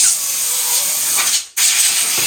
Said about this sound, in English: So kind of we'll start with just spraying them off with some air,